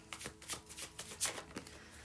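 Tarot cards being shuffled, a faint patter of quick, papery riffles and flicks coming in many short, irregular bursts over about two seconds.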